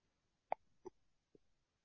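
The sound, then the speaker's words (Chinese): Three brief throaty burps, faint and abrupt, are spaced apart over near silence, the first the sharpest and the last the softest. “你的身上有凉风冒出去，哇，排气打嗝。”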